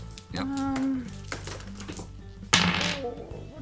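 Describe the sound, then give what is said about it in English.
Ten dice clatter in a brief rattling burst for a tabletop game, rising loudly for a moment amid people talking. “I got six dice. I didn't not roll a six. I rolled 10 dice.”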